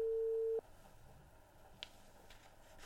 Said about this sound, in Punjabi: ਅਤੇ ਮੈਂ ਇਹਨਾਂ ਨੂੰ ਇੱਕ ਮਾੜੀ ਜਿਹੀ ਕਾਲ ਕਰਕੇ ਵੇਖਾਂ, ਭਲਾ ਕਿਤੇ ਭੁਲੇਖੇ 'ਚ ਹੀ ਨਾ ਹੋਣ।